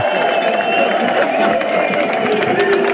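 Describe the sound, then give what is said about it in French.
Spectators cheer at Montmartre on the finish of the Tour de France, a dense, continuous roar of crowd noise that stays loud and even throughout, with voices mixed into the din. “On entend le public. Oui. La ferveur.”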